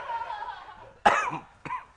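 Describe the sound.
Two sharp coughs, the first loud and rough with a short rasping tail, the second shorter and quieter about half a second later.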